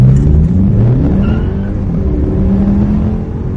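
A combustion-engine car pulls away hard from a standstill at a traffic light with its tires slipping; a loud, steady engine roar climbs in pitch as it accelerates, with no voices.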